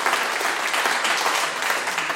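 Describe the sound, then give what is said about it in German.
Audience applause after a remark in a German talk about a book, a dense, steady wash of clapping that holds an even loudness throughout with no voices standing out. “Dafür kriegen Sie Applaus.”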